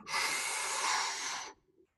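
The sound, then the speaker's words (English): A single long, deep inhale fills the lungs with air during a harmonica breathing lesson, a steady airy hiss that rises quickly, holds evenly for well over a second, then stops abruptly, with no voice. “So the next most natural thing to do is to fill up with air, full.”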